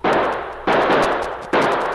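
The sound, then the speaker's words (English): Three loud gunshots ring out in a radio drama as a sergeant returns fire toward a fallen tree trunk screened by bushes in snowy underbrush. The shots are evenly spaced and each has a sharp crack with a long, rumbling decay. “The shots were coming from behind the huge trunk of a fallen tree, well screened by bushes and shrubbery. The sergeant returned the fire.”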